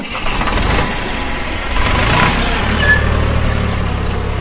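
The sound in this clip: Steady engine drone from a tractor ploughing a farm field in Jhapa, Nepal: a continuous low, rumbling hum with broad mechanical noise that holds an even level throughout, with no voices.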